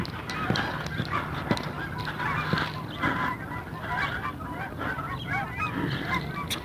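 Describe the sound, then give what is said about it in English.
A small flock of birds calling as it flies overhead: many overlapping honking calls in an irregular, continuous chatter, fairly loud throughout. “I stopped so this little flock could go overhead.”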